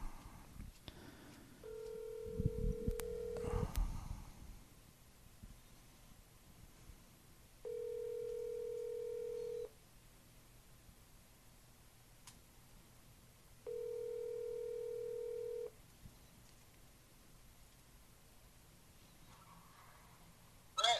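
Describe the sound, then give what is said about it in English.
Telephone ringback heard while placing an outgoing call: three long, steady ringing tones separated by pauses of several seconds, quiet overall. “I'm going to call Nick Maritato. Let me see if I can get him on the line.”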